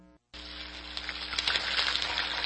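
A turkey deep-frying in cooking oil gives off a dense, crackling sizzle that starts abruptly after a brief silence and grows slightly louder, with a steady low hum beneath.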